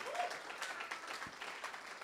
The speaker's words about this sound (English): Could we maybe just give them a round of applause? Because I think they are really serving and loving this church so, so well.